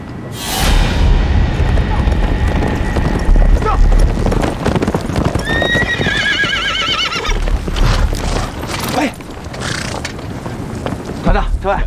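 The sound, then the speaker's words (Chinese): A horse whinnies with a high, wavering neigh near the middle, over a dense stretch of clip-clopping hooves and loud, busy rumbling background noise. “你把你马牵好了”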